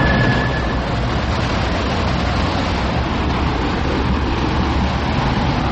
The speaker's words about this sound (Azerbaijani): Maşınlar diametri azı metr yarım olan içi zibillə doldurulmuş çuxurların yanından gelib gəlirlər.